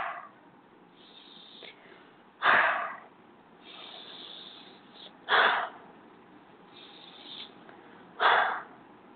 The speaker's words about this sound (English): Okay, take three nice deep breaths.